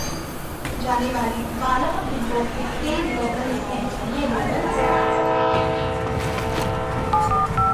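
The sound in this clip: Train horn and rail noise as a train pulls into a railway station, a long steady horn blast holding through the second half over a rumbling wash, with voices talking earlier.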